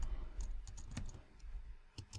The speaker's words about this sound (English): And I'll just type something very basic here.